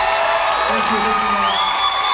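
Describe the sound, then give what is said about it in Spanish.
Concert audience applauding the musicians: dense, steady clapping that holds at an even level throughout, with voices mixed into the noise. “Sí, quiero que aprovechamos y le damos un fuerte aplauso, sí, a mis músicos.”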